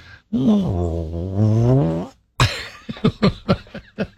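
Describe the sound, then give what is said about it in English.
A voice imitates a rumbling stomach, first with a drawn-out low, wavering groan, then a quick run of short, sputtering bursts. “You know, that growling in your stomach, rumbling around.”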